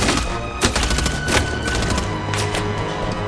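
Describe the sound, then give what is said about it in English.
Dense gunfire sounds from a rain of bullets during a shootout at a doorway. It forms a loud, continuous, noisy barrage of crackling shots with no clear gaps, and a few harder cracks stand out from the wash. “They retreat from the rain of bullets.”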